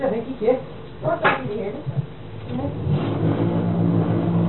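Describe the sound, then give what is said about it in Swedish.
Washing machine running, a low mechanical hum and whir that builds and then holds steady while people talk over it. “Vad är det? Det är en jävla vaskemaskin som går. Det är en vaskemaskin. Ja, men det är en vaskemaskin som går.”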